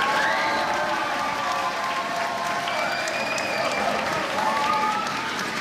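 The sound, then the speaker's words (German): Applause for a football world champion at a secondary-school book reading: a crowd claps steadily and continuously, with some cheering mixed in, for the whole stretch. “Riesenapplaus gestern am Wilhelm-Dörpfeld-Gymnasium für einen Fußballweltmeister.”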